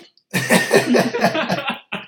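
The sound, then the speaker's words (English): A mouth noise imitating a fart, made by someone straining to hold one in: one sputtering, breathy burst of about a second and a half, rough and buzzy, followed by a brief short puff at the end. “I made it sound like I shit myself. Oh, you did that noise with your mouth.”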